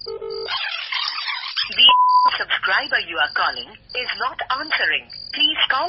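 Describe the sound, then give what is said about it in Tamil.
A phone call placed at night: brief electronic tones near the start and one clear, steady beep, followed by talk with a thin, band-limited telephone quality. “இன்னொரு தடவை அவளுக்கு phone பண்றான்”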